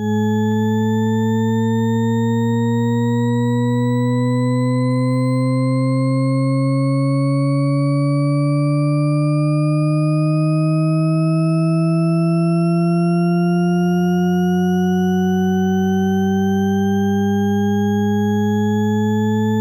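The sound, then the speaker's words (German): A sequence of tones played through shared earphones on a Y-splitter: a steady electronic tone rich in harmonics glides slowly and continuously upward in pitch for about twenty seconds, with a lower tone joining near the end. “So, und jetzt hört euch mal diese Tonfolge an.”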